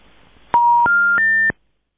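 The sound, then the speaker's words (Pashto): A telephone line plays three short tones after a disconnected call, each a steady beep a step higher in pitch than the last, sounding in quick succession and then giving way to silence. “حق بیان صاحب ټلیفون قطع شوی دی”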